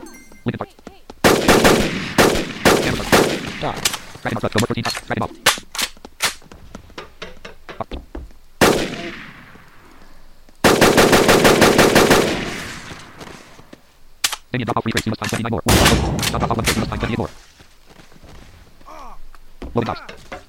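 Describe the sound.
Gunfire during a battle: many sharp, loud shots and bursts, some in rapid runs like machine-gun fire, with brief lulls between heavy volleys.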